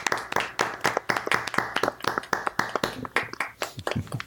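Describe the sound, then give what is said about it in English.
Applause from an audience at a live show: many sharp, distinct claps in a brisk, fairly even rhythm. “Give her a round of applause.”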